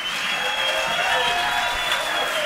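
An audience gives a round of applause for a performer, a continuous, even wash of many hands clapping at a moderate level.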